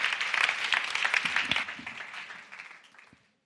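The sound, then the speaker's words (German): Audience applause at a conference: dense, steady clapping that thins out over the last second and fades to silence. “Also geben wir dem Christian mal einen kräftigen Applaus, okay?”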